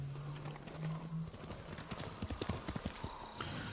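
Horse hooves clip-clop in a video game, a rapid run of many hoof beats in the second half over a steady, faint background.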